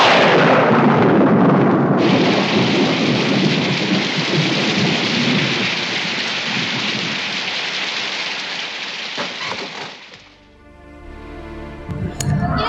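Rain pours down heavily in a loud, steady roar with deep thunder rumbling through it, then cuts off abruptly near the end, leaving a few brief ringing tones.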